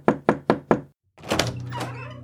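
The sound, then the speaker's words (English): Four firm knocks on an office door come in an even rhythm, then a short pause before people begin talking. “You head right to Matthias's. Knock.”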